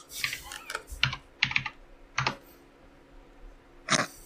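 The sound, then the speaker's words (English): Clicking keystrokes on a computer keyboard, coming in a few short, uneven bursts of rapid taps with quiet gaps between them and a final burst near the end. “All right, how do I type this in?”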